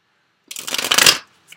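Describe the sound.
Cards being shuffled for a reading: after a moment of quiet comes one quick riffle, a crisp, papery flutter that builds and stops within about a second.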